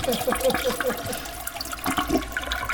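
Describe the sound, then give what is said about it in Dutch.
A long toilet flush: a sustained gush of rushing water that carries on for the whole stretch without fading out, with people talking over it. “Dat is een hele lange flush.”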